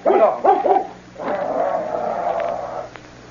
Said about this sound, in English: Hello, Buster. Nice boy. Get him away. Down, Buster, down. Take him out, Walker. Step the leash on him.